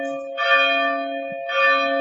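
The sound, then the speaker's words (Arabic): A church bell tolls for a funeral, two clear strikes about a second apart, each blooming into bright, sustained metallic harmonics that keep ringing between the blows. “والجنازه بتاعتك جت وعملوا لك الجرس في الكنيسه”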